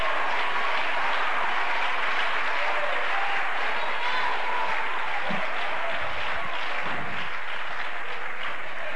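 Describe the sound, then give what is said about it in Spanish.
Congregation applause at a church service: a steady, dense wash of clapping that carries on for the full nine seconds at an even level, with no talk over it. “denle un aplauso a Cristo, que Él se lo merece.”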